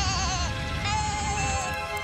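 Sheep bleating aboard a lorry stopped at a red traffic light: loud, wavering, nasal bleats run together across the whole moment, with a second cry breaking in partway through.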